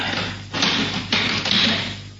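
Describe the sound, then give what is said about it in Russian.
Knocking on a door: three dull, fairly loud thuds spaced about half a second apart, with no voices. “Анат Лукич, откройте, это я, Раструбин.”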